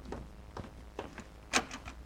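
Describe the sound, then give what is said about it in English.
A front door being answered, heard as a series of light, short clicks and knocks spaced out over two seconds, with one sharper, louder click near the end. “You answer the door this time, Rochester.”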